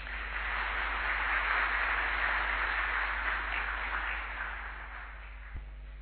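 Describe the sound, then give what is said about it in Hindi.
Loud audience clapping: a dense, continuous wash of many hands that holds steady, then eases slightly toward the end. “अपने लिए ताली बजाओ जोरदार।”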